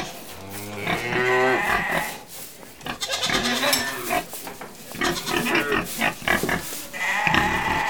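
Cows moo and sheep bleat on a farm that also keeps pigs and goats. Many overlapping animal calls, some low and drawn-out and others higher and wavering, sound fairly loud and continuous.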